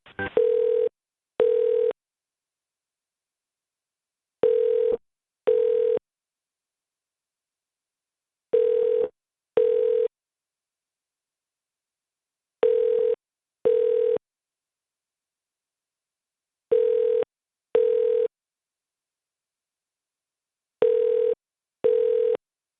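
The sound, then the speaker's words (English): Telephone ringing tone on a line being transferred to a hotel operator: six double rings, each a pair of short buzzing pulses, repeating at a steady interval with silence between them. “You are being transferred to the operator.”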